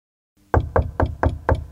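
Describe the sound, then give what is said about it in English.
Five sharp knocks on an office door, evenly spaced at a brisk, steady rhythm after a moment of silence. “Mr. Wells opened his office door when they knocked.”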